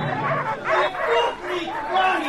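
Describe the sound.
Several dogs barking and yelping in a scuffle during a dog race by a large grandstand, a dense, fairly loud run of overlapping yaps and cries rising and falling in pitch throughout.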